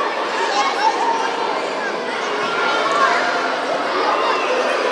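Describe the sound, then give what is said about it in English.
Children gathering at the start of a summer camp in Glanmire Community College Hall. A dense, steady babble of many young voices chattering all at once, with no single voice standing out. “Wait till we're inside. This is the sound of the start of the summer camp.”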